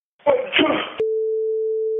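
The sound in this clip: A steady, unbroken telephone tone as a 911 emergency call is placed, holding one mid pitch for about a second after a brief stretch of talk.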